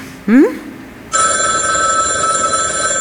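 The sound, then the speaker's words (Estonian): An electronic phone ringtone sounds for an incoming call: a short rising chirp, then from about one second on a steady, sustained bright tone with layered overtones that continues unbroken to the end. “Vabandust, mul poeg helistab.”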